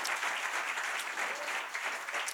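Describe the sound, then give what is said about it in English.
Audience applause for the Church of the Highlands team and staff, a dense, steady clatter of clapping hands that holds at an even level throughout. “Can we just give it up for all the Church of the Highlands team and staff?”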